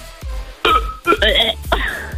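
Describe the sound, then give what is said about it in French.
People burping during a game-show challenge: several loud, guttural, voiced belches in quick succession, each with a rough, throaty onset. “Le premier qui rote gagne un point.”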